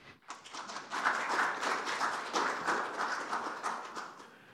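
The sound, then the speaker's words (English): An audience at a church family camp service applauds to welcome a guest speaker, a dense, steady wash of clapping that swells quickly and holds at an even level. “Would you put your hands together and welcome Dr. Tim Johnson.”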